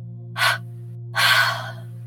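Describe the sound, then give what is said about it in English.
Breathing from a deep breathing exercise: a short airy rush comes first, then a longer, louder breathy release, both over a steady low electrical hum. “Again, in your nose, a deep cleansing breath. Double exhale out of your mouth.”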